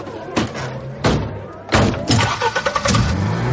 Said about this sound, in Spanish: pisa a fondo el acelerador